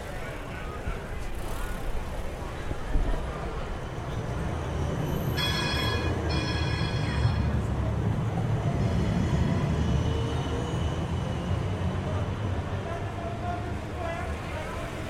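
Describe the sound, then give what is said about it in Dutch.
Trams approach from both sides on city tram tracks with cars around, giving a steady, heavy rumble. A brief high metallic wheel squeal rises midway through, over a constant wash of traffic noise. “Bovendien sta ik op de trambaan, terwijl er van beide kanten nu trams aankomen”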